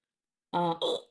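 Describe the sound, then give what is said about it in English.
Two short, voiced hiccups from a drunk person come back to back, each a brief throaty burst, fairly loud and with no talking around them. “And now I have the hiccups”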